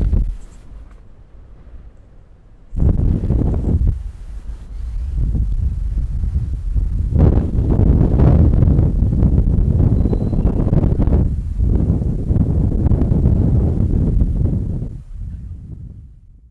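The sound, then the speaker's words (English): Strong wind of about 25 to 30 over choppy water, with rain starting: after a quieter opening, heavy, low buffeting rumbles surge in waves and stay loud, easing slightly at the end, with no talking. “Wind's kicking in about 25 to 30, and a constant chop.”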